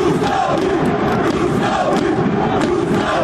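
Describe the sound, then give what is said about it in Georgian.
Football fans chant for their team after a league win away from home, a dense, loud crowd roar with rhythmic shouted pulses that continue without a break. “ასე სკანდირებდნენ რუსთაველი გულშემატკივრები საკუთარ გუნდს, როცა მატჩი რუსთავის გამარჯვებით დასრულდა.”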